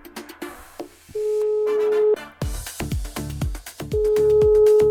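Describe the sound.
Ringback tone of an outgoing phone call, two long, steady beeps separated by a gap of a couple of seconds, heard over background music with sharp percussive hits.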